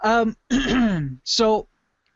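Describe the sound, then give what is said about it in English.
A person clearing their throat in three short, voiced, rasping pushes with brief gaps between them. “excuse me. Gosh, all of a sudden my throat's all freaking out here.”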